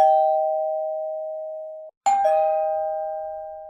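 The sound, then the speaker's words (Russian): A doorbell rings at a front door in two long, clear electronic chime tones with a brief gap between them. The second tone starts with a sharp click, and both ring steadily with no voices. “Раздался звонок.”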